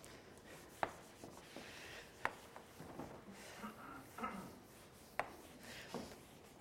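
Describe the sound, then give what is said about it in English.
Faint rubbing and scraping of writing being erased from a board, with a few sharper strokes standing out against quiet, steady background noise. “I really even hesitate to erase this, but I'm going to erase it.”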